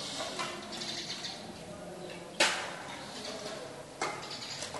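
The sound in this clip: Two sharp air gun shots crack out more than a second apart over a faint background with bird chirps. Each is a sudden piercing snap that fades quickly.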